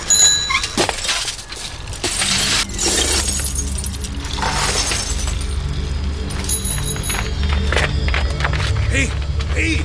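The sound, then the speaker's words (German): Glass shatters as a car window is smashed, with several harsh crashing bursts of breaking glass over a dense, noisy rumble that continues throughout. “Hat die Scheibe von meinem Auto zerschlagen.”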